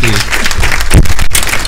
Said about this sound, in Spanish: Te aplaudimos, amigo